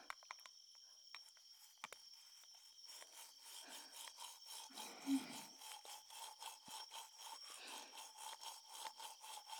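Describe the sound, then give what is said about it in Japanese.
Toothbrush brushing someone's lower teeth, heard as soft, steady scrubbing strokes in a quick repeating rhythm, with a few faint clicks first. “お口を開けていただけますか？はい、下の歯から磨きますね。”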